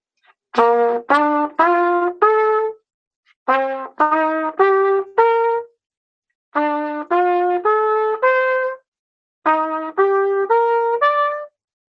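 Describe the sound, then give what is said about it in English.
Seventh chord arpeggios using only C major scale notes are played on a plucked or struck instrument: four separate groups of four notes. Within each group the pitches step upward and ring on, with short silences between the groups. “So the seventh chords that you use would sound something like this with those arpeggios.”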